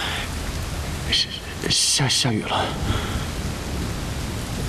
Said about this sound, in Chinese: 下雨了， 没滑倒吧？